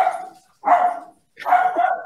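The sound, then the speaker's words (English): Dogs bark in a few loud, harsh bursts separated by brief silences. The barks are rough and full-bodied and stand alone without talk. “The dogs want to share their authentic voice”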